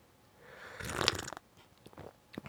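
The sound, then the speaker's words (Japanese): A sip of rosehip and hibiscus tea, heard as a soft, airy slurp that swells for about half a second and fades, followed by a few faint small mouth sounds. “開ける前にちょっとお茶を飲みます”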